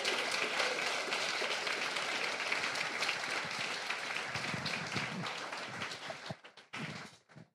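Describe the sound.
An audience applauds a teacher being welcomed to the stage, a dense, sustained wash of clapping that holds steady and then thins into a few scattered claps as it dies away.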